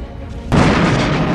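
A starship weapon fires and an explosion destroys a target in a space-battle drama: a low rumble gives way to a sudden loud blast about halfway in, followed by a dense, sustained roar.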